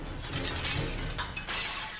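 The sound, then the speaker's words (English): A stack of dinner plates tips over and shatters, giving a dense, clattering crash of breaking crockery with jangling fragments that keep sounding through the whole burst. “It lands beside a stack of dinner plates, which tip over.”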